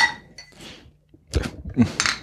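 Glasses clinking together in a toast: a few bright, quick chinks in short succession, preceded by softer clatter and light handling noise.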